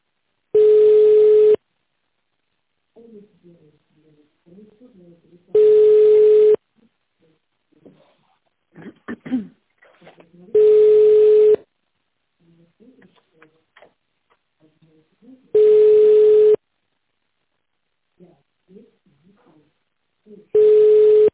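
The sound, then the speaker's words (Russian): Telephone ringback tone while a call waits for an answer: five steady, single-pitched tones, each about a second long, at regular intervals, with someone talking quietly in the gaps. “Абонент пока что не отвечает, но я продолжаю дозваниваться. Оставайтесь на линии.”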